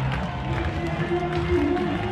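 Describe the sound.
The crowd at an Isotopes baseball game rises to its feet with two outs and two strikes. Their steady, swelling murmur is heard under an announcer's talk.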